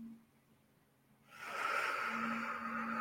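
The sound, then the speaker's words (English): A deep breath drawn in through the nose: after a near-silent start, a soft airy hiss swells up and holds steadily, faint and unhurried. “Take another deep breath in through your nose and out through your mouth like blowing a straw. One more time. In”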